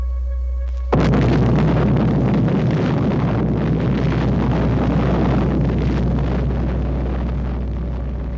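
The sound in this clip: Atomic bomb test explosion: a sudden blast onset bursts into a loud, broad, rumbling roar that holds for several seconds over a steady low hum.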